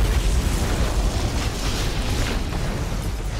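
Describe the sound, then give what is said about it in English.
A loud explosion roars as a trigger is clicked and a bomb detonates, a dense, rumbling blast that holds steady for the whole clip with no voices. “if one of us clicks the other trigger, then we detonate. Or if we don't click the trigger, then we both detonate.”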